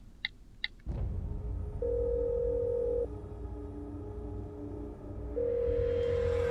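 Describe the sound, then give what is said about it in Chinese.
Telephone tones on a call dialed from a mobile phone: two short beeps at the start, then a low background hum and two long, steady ringback tones separated by a pause. “又拨了个号码出去”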